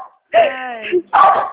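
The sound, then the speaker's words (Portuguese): A dog barks close by, giving two loud barks. The first is drawn out and whiny, and the second is shorter and rougher. “É a Jade, ó, tá aqui pertinho de mim latindo”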